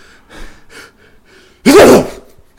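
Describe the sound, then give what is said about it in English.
A person forcing a fake sneeze: one loud, breathy burst that rises sharply and then trails off, following a few faint, soft vocal sounds. “Do a real fake sneeze.”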